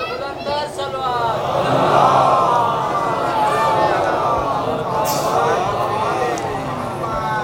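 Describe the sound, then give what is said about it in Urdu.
A crowd at a religious gathering chants slogans together, many voices merging into a loud, sustained and even wash of collective vocal sound. “میں آپ سے چاہوں گا کہ آپ نعرہ نہ لگائیے تاکہ مجھے زیادہ وقت مل سکے”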